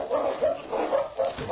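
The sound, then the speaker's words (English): Two friendly dogs barking, several quick, mid-pitched woofs and yaps tumbling over one another in a short, busy burst. “They're two fine dogs. They seem to take to each other right away.”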